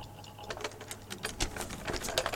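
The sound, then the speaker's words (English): A nicely wrapped gift box holding a small clock, given a little shake: many quick, faint rattling clicks and taps in an uneven patter. “Now, it seems to be making a bit of a noise. Give it just a little shake.”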